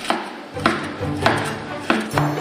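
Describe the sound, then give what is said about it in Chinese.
A knife slices pre-cooked beef into thin, even slices. Five sharp strokes land at an unhurried, slightly uneven pace, each a crisp cutting tap with a short, dull knock underneath. “提前煮熟的牛肉切成均匀的薄片”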